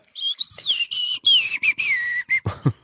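A person whistles a jaunty tune, imitating a whistled melody from an animated film. Several bright, sustained phrases glide up and down, broken by short pauses.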